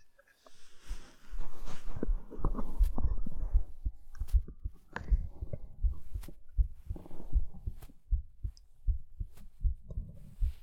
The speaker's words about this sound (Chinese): 能听到姐姐的心跳声吗？